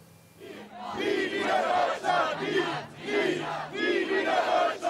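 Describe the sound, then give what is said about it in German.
Around 750 demonstrators march through Bremen's Neustadt district, protesting German Unity Day celebrations. The crowd chants and shouts in loud, rhythmic surges roughly once a second, with many voices blending together. “Rund 750 Menschen ziehen aktuell laut Polizei durch die Bremer Neustadt. Die Veranstalter sprechen sogar von 1000. Sie demonstrieren gegen den Tag der Deutschen Einheit und die Feierlichkeiten.”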